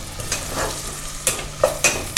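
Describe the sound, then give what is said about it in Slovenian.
Two finely chopped onions frying in about 50 grams of butter in a pan, giving a steady hiss and sizzle broken by a few sharp stirring scrapes toward the end. “In v maslo dam tudi čebulo. Torej dve čebuli sem nadrobno nasekljal.”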